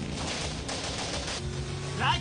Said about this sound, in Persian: چرا دارن تیراندازی میکنن؟